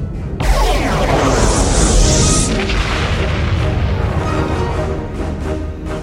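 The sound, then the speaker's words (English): Starship weapons fire as an enemy vessel attacks, setting off explosions aboard: a loud, unbroken barrage of deep booms and rumbling crashes, with a bright whooshing burst early on, sustained for several seconds. “The Borg ship is firing.”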